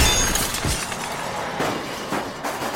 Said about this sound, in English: No sooner had it landed on its painted glass face with a smash than a swiftly moving bus happened by,